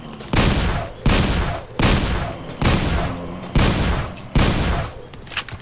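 Shotgun blasts in a video game: six loud, booming shots at a steady, even pace, each cutting off sharply and then dying away before the next one.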